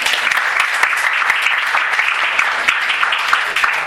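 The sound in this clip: An audience applauds at an event, producing dense, steady clapping throughout at a strong even level with no pauses.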